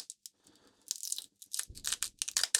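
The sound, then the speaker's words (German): Papery skin being peeled off garlic cloves in a kitchen, quiet crinkling and tearing in short irregular bursts that grow busier and crisper toward the end. “Das heißt, einmal kurz die Haut abziehen, damit sie soweit fertig werden.”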